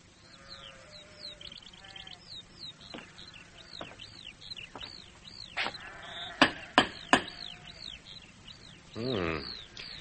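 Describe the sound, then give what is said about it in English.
Sheep bleat repeatedly on a prosperous farm in 410 AD: many wavering, nasal calls overlap at varying loudness, with a louder, longer bleat near the end and a few sharp clicks in between. “Farm seems pretty prosperous, though. I wish my men looked as well fed as those sheep.”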